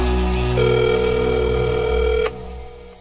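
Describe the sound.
A telephone rings with a steady, bright electronic tone that holds evenly, then cuts off abruptly, leaving a faint hum behind.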